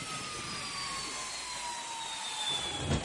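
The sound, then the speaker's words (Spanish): A jet-propelled car with a Formula 1 body gives off a steady jet-engine roar. The broad rushing noise carries faint whining tones that slowly drop in pitch, and it swells slightly near the end. “Tiene la carrocería de un Fórmula 1 y lo impulsan propulsores.”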